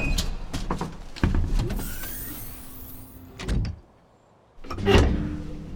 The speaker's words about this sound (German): Ja, das ist die Tür zum Fahrstuhl nach oben. Also bitte schön, hereinspaziert.